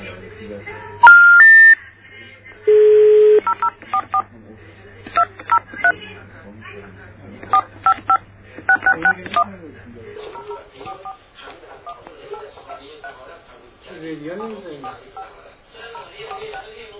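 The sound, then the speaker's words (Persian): Telephone keypad tones dial phone numbers: a few long DTMF tones come first, then many short, crisp beeps in quick bursts. A voice talks through the later part. “شماره مختلفی رو میگیرم.”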